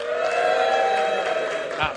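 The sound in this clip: A single voice imitates a cheering crowd during a performer's pretend introduction of a tightrope walk across Niagara Falls. It is one sustained, roaring vocal tone held steadily for about two seconds.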